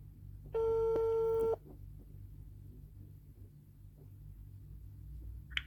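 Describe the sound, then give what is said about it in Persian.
A telephone ringing tone sounds while a call is placed: one steady, loud electronic tone lasts about a second, then stops, leaving a low hum and rumble underneath. “پس بریم که باهاشون تماس بگیریم و مصاحبهمون رو شروع کنیم.”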